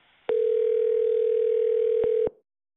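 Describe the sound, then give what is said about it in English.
A telephone tone plays while a call is being transferred: one steady, unbroken tone of about two seconds, with sharp clicks at its start and end. “please hang up and dial 4. Wait while I transfer your call.”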